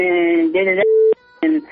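Telephone ringing on a call that goes unanswered, heard as loud electronic tones in short uneven bursts separated by brief gaps.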